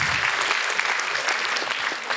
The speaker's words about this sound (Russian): А поаплодируйте, кого лечили йодной сеткой. Есть кого лечили йодной сеткой?